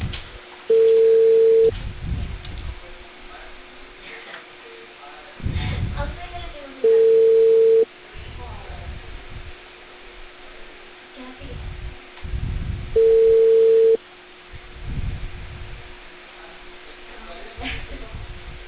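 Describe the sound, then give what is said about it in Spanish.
Telephone ringback tone while a call is placed: three steady, flat mid-pitched tones, each about a second long and spaced roughly six seconds apart, with low muffled rumbling and faint murmur in the gaps. “¿Aló? Buenos días, estoy llamando de Cale Perú con Eva Segamo.”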